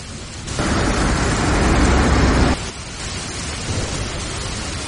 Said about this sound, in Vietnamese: Những giọt mưa giống như ngọn roi quật bùm vào cửa sổ. Cả thế giới đang bị cơn mưa tầm tã rung chuyển, giống như sắp sụp đổ vậy.